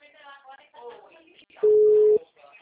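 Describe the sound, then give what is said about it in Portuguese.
A telephone ringback tone on an outgoing call follows a voice speaking: one flat, steady mid-pitched beep held for about half a second, then talk resumes faintly. “Tá chamando agora. Tá chamando.”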